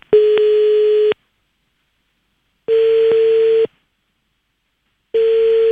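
Ringback tone on an outgoing telephone call, a steady electronic tone sounding in three long pulses separated by silent gaps, with no talking.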